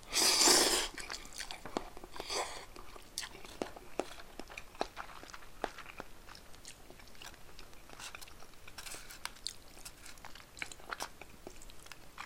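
Chewing of natto, fermented soybeans: many small, quiet, moist crunchy clicks and mouth sounds at an irregular rhythm, with a louder burst at the very start.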